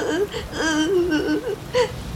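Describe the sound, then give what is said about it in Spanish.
A girl whimpers and sobs while hiding under a mushroom during a storm, giving short, high, wavering voiced cries in a few separate bursts, alone and fairly quiet. “Lucía se escondió debajo de un hongo y comenzó a llorar”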